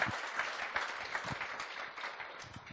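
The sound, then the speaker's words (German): Audience applause: a steady wash of many hands clapping together, sustained throughout and easing slightly toward the end. “Come on, can we give a hand of encouragement? Gebt ihr doch mal einen Applaus.”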